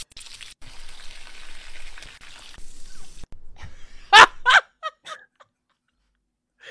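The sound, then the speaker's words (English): Thick-cut bacon sizzles in a pan, a steady crackling hiss lasting about three seconds, then a few short, sharp vocal bursts once the frying fades. “This man literally just fried bacon and then threw cheese on top.”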